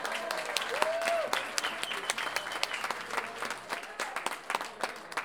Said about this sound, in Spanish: Le vamos a dar un aplauso cuando yo lo mencione.